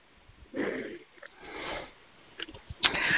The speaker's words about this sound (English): And just take a nice deep breath.